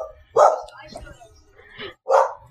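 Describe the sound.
Dogs barking, with two loud, short bursts of barking separated by a quieter stretch in which faint voices can be heard.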